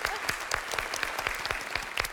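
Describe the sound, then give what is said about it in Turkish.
Applause from a quiz game show audience, a busy crowd clatter with sharp, regularly spaced claps standing out in a quick, even beat throughout the short burst. “Olur tamam, ikinizi de alkışlıyorum.”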